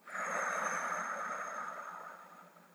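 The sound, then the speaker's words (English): A slow, deep breath drawn in during a calming exercise: a steady, airy hiss that swells quickly, holds, then gradually fades over a couple of seconds, with no talk. “So let's do it right now. Let's take three breaths in. Hold it at the top.”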